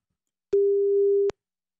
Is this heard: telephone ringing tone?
yes